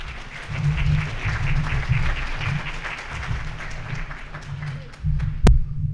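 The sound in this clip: Applause from a conference audience welcoming a speaker, a steady crackle of many hands over a low hum. The clapping dips briefly, then ends with a sharp thump.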